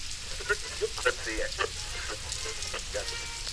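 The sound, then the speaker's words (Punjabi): Rain falls in a soft, steady hiss that stays even throughout, with faint indistinct voices over it. “ਹੁਣ ਮੈਂ ਘਰ ਕਿਵੇਂ ਜਾਵਾਂਗਾ, ਇਹ ਬਾਰਿਸ਼ ਫਿਰ ਸ਼ੁਰੂ ਹੋ ਗਈ ਹੈ।”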